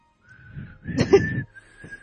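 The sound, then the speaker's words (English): A person whistles a short four-note tune, G, B flat, A, D, in clear mid-pitched tones with brief gaps between notes, over a faint low murmur. “you know the whistle. There's that the famous Hunger Games whistle.”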